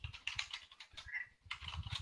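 Rapid clicking and typing on a computer keyboard, many quick keystrokes in an uneven patter with a short pause midway before the tapping resumes.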